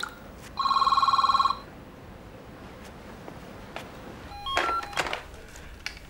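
A telephone rings once in a bright, rapid electronic trill lasting about a second, then falls quiet against faint background hiss.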